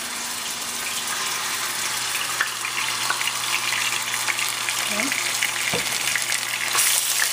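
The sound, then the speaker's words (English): Ginger and garlic sizzling after being added to hot oil: a continuous, bright hiss of frying that stays loud and steady throughout and grows a little stronger near the end. “Now the oil is nice and hot. To this, I'm going to go ahead and add our ginger and garlic. Be careful, it might splatter.”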